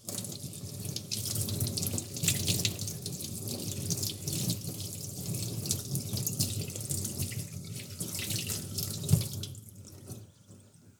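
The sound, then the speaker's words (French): Running tap water pours over two broccoli heads being rinsed in a sink, a steady hissing rush with shifting splashes, one sharper splash near the end before the flow thins and fades. “Maintenant, je vais les rincer, et comme ça, ils seront prêts pour la suite”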